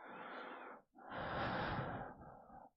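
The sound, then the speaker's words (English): Close, heavy breathing as someone leans in over a chest: two long, airy, slightly rasping breaths with a brief gap between them. The second breath is longer and rougher, and there is no talking. “Feel my breath as I lean over your chest.”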